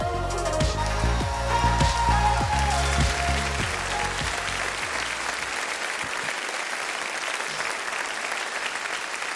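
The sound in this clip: A church audience claps to welcome a guest speaker, a steady, even wash of applause that holds throughout, with low sustained tones underneath during the first half.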